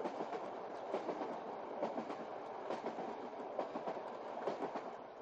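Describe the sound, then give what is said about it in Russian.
A long-distance train in motion, heard from the vestibule between carriages: a steady, dense rumble with a faint, regular clickety-clack of wheels running underneath. “курит в тамбуре поезда дальнего следования”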